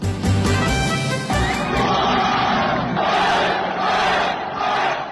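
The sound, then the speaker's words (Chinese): A large crowd of football fans and players roars and cheers after a comeback away win over the league leaders. The loud, continuous din rises and falls in rhythmic surges throughout. “客场逆转击败领头羊上海上港，国安队的队员们和远征客场的球迷们纵情的欢呼。”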